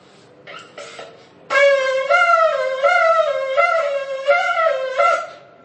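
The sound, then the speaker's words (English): Teruah sounded on a ram's horn shofar: a few faint preliminary tones, then a loud, bright horn blast broken into a series of short, wavering segments that pulse up and down in pitch before fading. “Some say the Teruah is a broken sound like this.”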